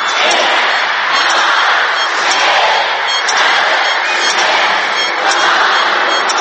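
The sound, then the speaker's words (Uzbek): Fireworks celebrating the arrival of the 2011 New Year make a loud, dense, continuous crackling and popping that keeps a steady, unbroken intensity from start to end. “Dunyo ahli 2011-yilni mushakbozliklar bilan kutib olmoqda.”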